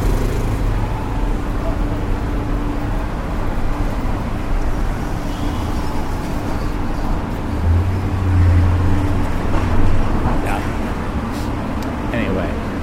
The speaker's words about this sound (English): Heading towards the bus terminal here on 41st Street.